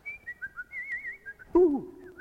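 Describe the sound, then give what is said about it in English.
A person whistles a short, wavering melody of high, light notes, followed by a louder sound whose pitch falls. “When they're scared, they whistle.”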